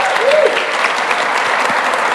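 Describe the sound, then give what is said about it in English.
An audience claps in steady, dense applause for a group of young men, a continuous loud wash of hand claps throughout, with a brief voice or whistle near the start. “Round of applause for these young men, right?”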